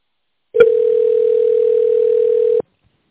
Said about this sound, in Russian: Для соединения с сотрудником наберите его внутренний номер или дождитесь ответа секретаря.